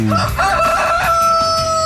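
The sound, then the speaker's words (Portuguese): A rooster crows loudly in one drawn-out cock-a-doodle-doo with a bright, strained tone that climbs and then holds before cutting off. “Ela tem sempre um galo por aí também.”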